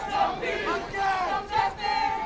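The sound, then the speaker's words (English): A protest crowd of hundreds chants at a rally at a city intersection. Many voices rise and fall together in repeated shouted phrases. “the intersection of Livingston Avenue and Henry Johnson Boulevard, a crowd of hundreds, many holding posters reading, "I Can't Breathe," with pictures of George Floyd, chanted, "No justice, no peace."”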